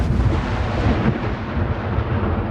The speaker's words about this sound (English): Thunderous outgoing Israeli attacks are the northern border's drumbeat.